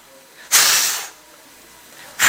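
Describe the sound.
Someone blows into a microphone during a church sermon, making a loud, windy hiss that lasts about half a second. A second breathy burst starts at the very end over a quiet background.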